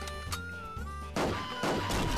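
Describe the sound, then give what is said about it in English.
Objects explode as they fall and hit the ground in a video game. Two harsh, loud crashing blasts come about half a second apart and cut sharply through a steady tonal background. “They actually, when they fall and hit the ground, they explode.”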